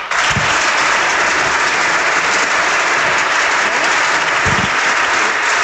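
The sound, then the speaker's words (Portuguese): Applause rings out in Portugal's parliament from the left benches, where Socialist Party and Left Bloc members clap. It is dense and loud, and the clapping holds steady for the whole stretch without a break. “Agora os aplausos também da esquerda, do Partido Socialista e até do Bloco.”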